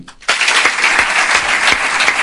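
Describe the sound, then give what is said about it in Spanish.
Applause breaks out after an emotional farewell speech, bursting in suddenly from near-silence into steady, loud, dense clapping that continues without pause. “Los aplausos para Raúl García, que se ha emocionado, pero ha podido contener las lágrimas.”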